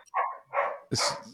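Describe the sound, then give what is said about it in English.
A dog barks three times in quick succession, loud and alone, the last bark harsher and higher than the first two. “But, no, that's my dog.”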